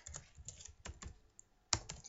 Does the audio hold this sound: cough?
no

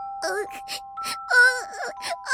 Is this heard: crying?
yes

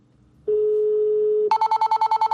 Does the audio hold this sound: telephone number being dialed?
yes

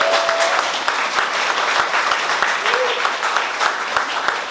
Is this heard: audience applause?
yes

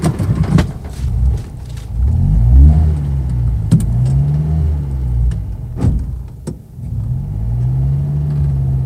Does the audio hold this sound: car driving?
yes

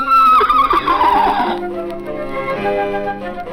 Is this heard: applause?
no

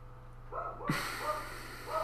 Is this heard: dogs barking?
yes

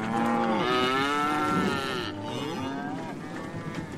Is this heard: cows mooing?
yes

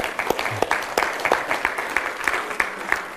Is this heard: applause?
yes

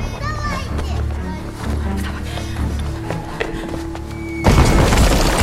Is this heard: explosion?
yes

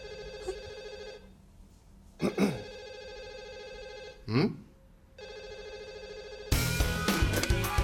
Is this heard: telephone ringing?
yes

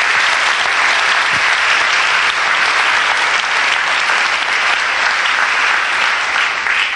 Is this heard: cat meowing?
no

